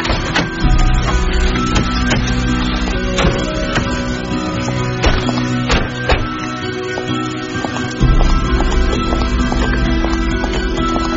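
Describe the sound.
Footsteps of people walking inside a house: many repeated thudding steps, loud and steady, over a constant low hum.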